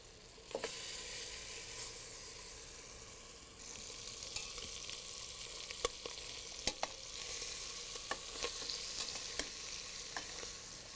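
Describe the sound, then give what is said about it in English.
Veal shanks browning in butter in a pot give a steady, faint sizzle with scattered sharp crackles and pops throughout, and no talking. “First, I'm going to brown the veal shanks in the pot in some butter.”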